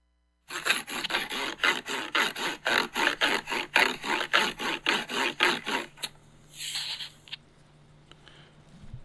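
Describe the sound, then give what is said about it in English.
Rasping scrapes of a Kinect sensor rubbed back and forth on cardboard form a steady run of many even strokes, followed by a softer, fading scrape at the end. “That was the sound of me rubbing my Kinect onto some cardboard.”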